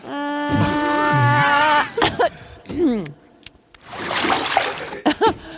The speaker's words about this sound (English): They're spitting toilet water back and forth.